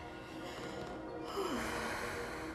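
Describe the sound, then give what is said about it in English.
A person feeling lightheaded lets out a soft, low groan that dips in pitch, mixed with a breathy, sighing exhale at a moderate level. “just groaning a little, I got a little lightheaded there”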